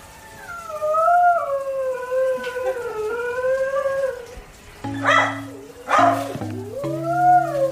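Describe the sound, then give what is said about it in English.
A dog howls while high on drugs after surgery at a veterinary center, with one long, loud, wavering howl that drifts slowly downward in pitch. Shorter cries and other sounds follow. “This is the sound of a dog high on drugs after surgery.”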